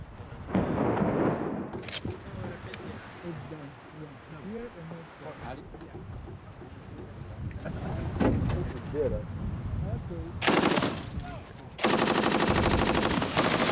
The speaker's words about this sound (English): Limonov became notorious when he was then filmed firing a machine gun in what seemed a random manner into the city below.